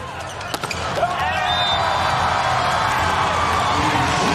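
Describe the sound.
A volleyball is bounced and served during a China–Japan match. A few sharp thuds come early, then give way to loud, steady crowd noise with cheering and whistle-like cries.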